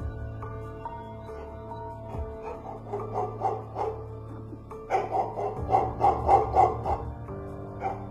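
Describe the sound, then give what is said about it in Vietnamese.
A chained dog in a kitchen barks frantically at night, many sharp yapping barks that grow louder and denser toward the end, heard over a steady low drone. “Con chó nhà ông Hướng xích ở dưới bếp bỗng nhiên lồng lộn lên, sủa nhăng nhẳng hướng lên trên nhà.”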